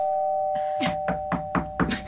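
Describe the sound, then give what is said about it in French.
A doorbell rings at the door of the Socialist Party offices: a steady tone, then a few quick, evenly spaced bright strikes, fairly loud and alone without voices. “Ils ont démissionné et ils sont partis, ils sont allés sonner au Parti Socialiste.”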